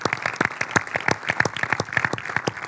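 Audience applause at an event honoring a volleyball team that won a cup: many sharp hand claps in a steady, fairly even patter of moderate loudness throughout.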